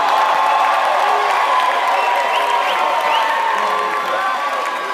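A live studio audience at Whittier College cheers and applauds at a charity event, steady loud clapping mixed with crowd noise and a few high whoops.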